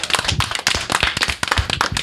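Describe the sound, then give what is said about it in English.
An audience at a live panel show claps, with crisp, dense hand claps pattering at a quick, uneven rate throughout. “And fellow panel members, let's have some applause for our lovely audience tonight.”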